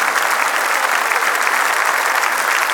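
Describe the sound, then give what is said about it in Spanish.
A crowd at a live worship concert gives strong applause, a thick, steady wash of many clapping hands that stays loud and unbroken throughout. “Dele fuerte ese aplauso a Él. Porque no hay nadie como nuestro Dios.”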